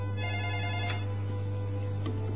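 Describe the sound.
A telephone rings with an incoming call to a radio phone-in program: a steady, tonal ring, fairly faint and alone, lasting about two seconds.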